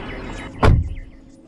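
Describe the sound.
A car door on a car with American flags on the hood, as boys climb in: one solid, low thump mid-clip, with a brief rumble trailing off after it over a quiet background.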